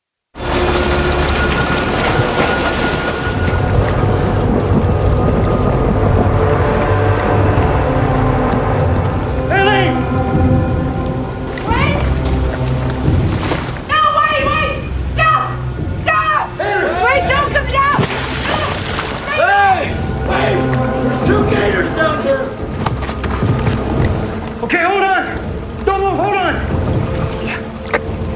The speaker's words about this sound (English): It's like it's a disaster film in one sense because there's this big hurricane in Gainesville